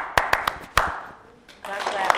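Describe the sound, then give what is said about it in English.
Hands clap in a lesson on Ghanaian call-and-response clapping. Four sharp, distinct claps come in a quick rhythm, then a voice talks over a quieter stretch. “what I'm trying to ask you to do is to clap your hands. Pa, pa. That's it.”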